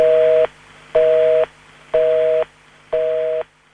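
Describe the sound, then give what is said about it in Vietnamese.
A telephone busy tone plays after the other end hangs up: four loud, even beeps of about half a second each, separated by equal silences. The pitch stays steady throughout, with no voices. “Đầu dây bên kia đã cúp máy.”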